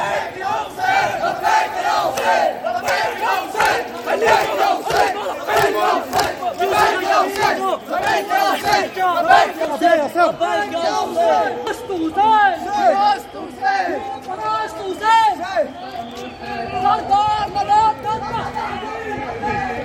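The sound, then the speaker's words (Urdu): Shia mourners in a procession in Srinagar chant Labbaik ya Hussain slogans. Many voices shout loud, repeated calls that rise and fall over continuous crowd babble. “جلوس میں شامل York لبیک یا حسین لبیک یا خامنائی کے فلک شگاف نعرے بلند کر رہے تھے۔”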